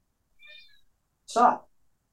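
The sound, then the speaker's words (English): A cat meows twice: first a faint, short call, then a louder, harsher and more strained meow. “Wait, that's my cat going crazy.”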